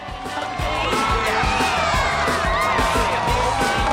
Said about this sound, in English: Everyone cheers when he successfully flips his cup.